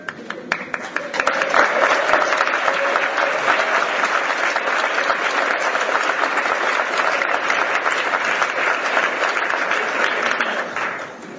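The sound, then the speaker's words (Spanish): Audience applause at a seminar, a dense, sustained burst of clapping that swells within the first second or two, holds steady for about ten seconds, then tapers off at the end. “No me hubieran aplaudido, pues.”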